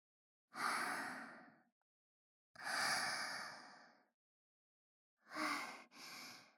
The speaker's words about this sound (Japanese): ちょっと深呼吸。